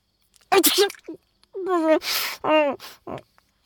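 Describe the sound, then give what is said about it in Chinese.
A voice-acted sneeze in an audio drama: strained, breathy vocal build-ups break into a sharp, hissing burst, with a few short vocal noises around it. “展昭打了个喷嚏，揉了揉鼻子”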